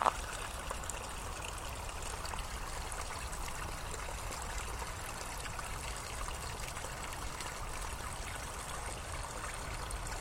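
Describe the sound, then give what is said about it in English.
A small stream trickles and bubbles over tiny falls of water beside a path, making a steady, even babble and splashing that holds constant throughout with no voices. “Tinkling little falls of water, just bubbling away.”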